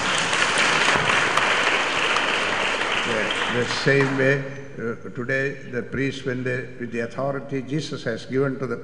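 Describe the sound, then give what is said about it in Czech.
Applause from an audience for the visiting priests at a church Mass: a dense, steady wash of clapping for about four seconds, then it fades out and a single voice begins speaking. “Takže jim pojďme teď zatleskat.”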